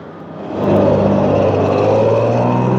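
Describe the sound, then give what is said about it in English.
A black cab taxi engine pulls away to follow a double-decker bus on a city street: a steady, broad engine rumble that swells in loudness early on, then holds at an even, sustained level. “He gets in, and the black cab drives round the corner after the bus.”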